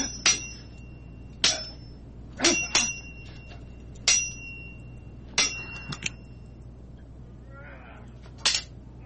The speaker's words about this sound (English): We got to talk about sword ratchetness before we get out of here. Where's my sword sound effect?